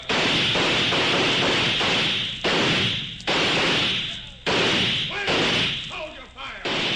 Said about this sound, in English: Give them a chance to shoot up the barn and go inside. They're in the barn. Let's blast them out.